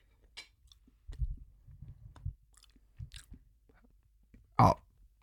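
Chewing of rice coated in a smoky Asian-style sauce: soft, irregular wet munching and biting, then a single sharp, louder crunch near the end, with no voices.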